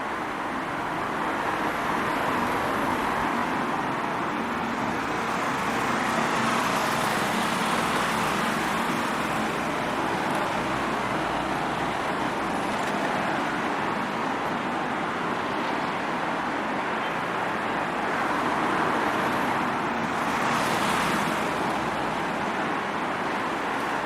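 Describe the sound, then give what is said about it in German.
Continuous traffic on the A2 motorway, a route linking western German cities with Poland, forming a steady, even roar of passing vehicles with no clear individual pass-bys and no talk. “Wenn wir heute von Gelsenkirchen, Bochum, Hannover oder einer anderen westdeutschen Stadt nach Polen fahren wollen, nutzen wir diese Autobahn.”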